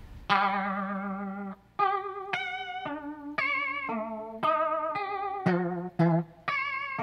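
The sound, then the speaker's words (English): Electric guitar run through a Strymon effects pedal: many picked notes and chords in a steady sequence, each ringing out with a wavering, shimmering modulated tone before the next strike, with no voices. “So next to that, you've got a Strymon pedal. The Strymon, yep. That sounds like this.”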